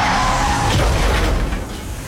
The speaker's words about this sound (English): Then comes the crash.